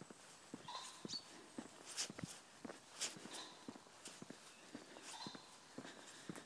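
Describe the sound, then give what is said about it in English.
Fast footsteps from someone walking briskly, many quick, regular steps that sound faint and crisp, with no voices. “Walking particularly fast today because I need to get back to my cup of tea, which is sitting on the stove.”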